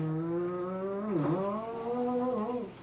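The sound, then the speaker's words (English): A motorcycle engine revs in first gear with a steady, buzzing harmonic drone. Its pitch dips briefly, climbs back up, then eases off as the throttle is cut at the end. “You wind it up in the first gear like this. And then you push your lever down. You cut the gas down, pull in the clutch.”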